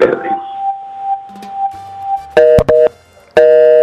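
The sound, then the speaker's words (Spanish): Telephone tones after a dropped call: a steady tone runs under brief talk, then a few loud, buzzy beeps follow. “Caramba, se nos cayó la llamada con el maestro”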